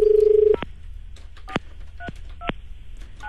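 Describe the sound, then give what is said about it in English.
Telephone number being dialed to call a radio station: a steady tone for about half a second, then a few short, sharp key beeps at uneven intervals over a low background hum. “So I'm just going to dial him up right now.”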